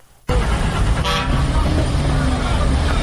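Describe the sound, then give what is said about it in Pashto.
A car horn toots once amid steady traffic rumble at the Kandahar bus station, where small and large vehicles leave for Kabul. The short, bright honk sits over continuous loud engine and road noise. “دا په کندهار کې د کابل موټرونو اډه ده چې له دې ځای هر ورځ زرګونه مسافر په کوچني او غټو موټرونو کې کابل ته تګ راتګ کوي.”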